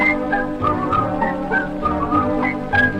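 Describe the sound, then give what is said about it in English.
Someone whistles a little Swiss song: a lively melody of short, bright notes that hop up and down in a quick, bouncy rhythm, with no other sound. “all they do is, with a little Swiss whistling song”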